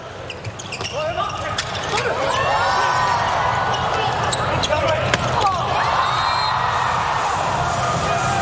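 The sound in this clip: A volleyball serve in a match involving Slovenia: sharp ball strikes ring out over a loud, cheering arena crowd while voices talk throughout.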